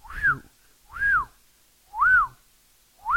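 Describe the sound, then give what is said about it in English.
A man whistles in short repeated notes. Four bright, arching tones each rise and then fall in pitch, evenly spaced about a second apart with silence between; the last is cut off. “he just keeps whistling like, wow, that was hell.”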